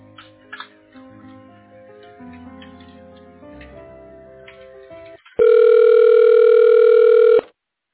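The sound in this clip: A telephone call being transferred to voicemail: soft hold sounds with faint ticking, then a single loud, steady ring tone of about two seconds that cuts off abruptly.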